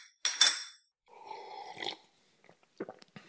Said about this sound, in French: Et servez-moi un boc. Voilà, voilà. Il sert un boc sous coupe.